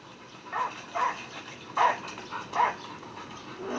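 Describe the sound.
A dog barks and whimpers in a handful of short, muffled yelps spaced unevenly over a low background hiss, with the strongest cries coming near the middle.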